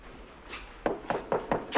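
Knuckles rap on an apartment door: five firm knocks in a quick, fairly even rhythm, each one a sharp, hollow thud standing alone against near silence.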